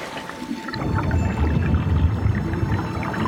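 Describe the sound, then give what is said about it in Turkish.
Water churns and gurgles as barrels are lowered into water from a platform for a pressure demonstration. After a short quiet start, a steady low rumbling wash sets in and continues to the end. “Rica etsem varilleri suya indirebilir miyiz?”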